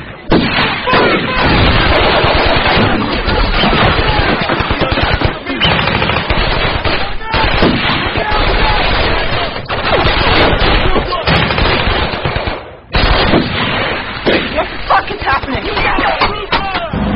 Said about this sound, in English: The convoy's hit. We're pinned down by sniper fire.